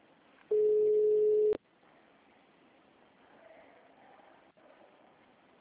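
A telephone line tone during a call transfer to a hospital scheduling line: one loud, steady, even-pitched tone lasting about a second, then faint line hiss, with another tone starting right at the end.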